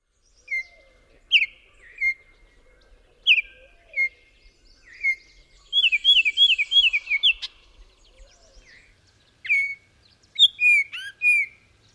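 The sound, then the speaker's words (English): Baltimore oriole song of short, loud, clear whistled notes, given as many separate chirps with a quick flurry in the middle, over a quiet background. “The Baltimore Orioles that can nest in the area have a short song consisting of loud, clear notes.”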